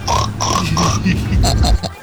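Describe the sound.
A person imitates a pig oinking with a few quick, nasal, grunting oinks in a row, followed by more voiced snorting sounds.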